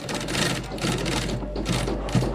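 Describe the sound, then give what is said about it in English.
Sewing machines run in a living room turned into a home shoe workshop, giving a steady, fairly quiet whirring hum with a rapid stitching rattle that swells and eases slightly. No talking is heard. “Up a few steps through the front door is the living room. There aren't couches, but sewing machines.”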